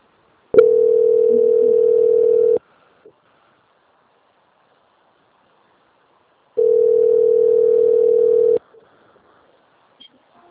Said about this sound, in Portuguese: Informo que estarei transferindo a ligação para a central de qualidade. Peço que aguarde um instante, por gentileza.